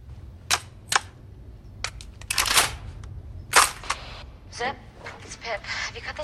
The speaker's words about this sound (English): loads a nail gun with a fresh line of nails